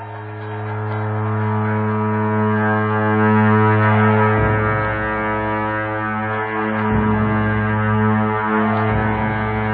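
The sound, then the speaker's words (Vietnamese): A pair of ritual horns played in alternation during a monastic ceremony, making a loud, deep, continuous drone that never breaks. The steady low tone holds throughout, with only slight shifts in texture every few seconds. “Hai nhạc công thay phiên nhau thổi làm sao để âm thanh trầm này không bao giờ dứt, và bất cứ bản nhạc nào cũng khởi đầu và chấm dứt bằng âm thanh của cặp tù và này.”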